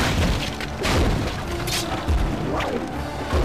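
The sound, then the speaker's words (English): A war machine being destroyed in a video game, heard as a dense, continuous run of booms, crashes and smashing debris with heavy low rumble and repeated sharper impacts. “Yay, I destroyed another war machine.”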